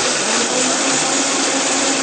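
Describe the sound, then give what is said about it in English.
A blender whirs as it blends soy milk with cashew nuts, a loud, steady, even motor roar that holds without a break from start to finish. “I have about a cup of soy milk in my blender, and I'm throwing in about a half a cup of cashew nuts. We're going to put the lid on top and start out very slowly so we don't splatter.”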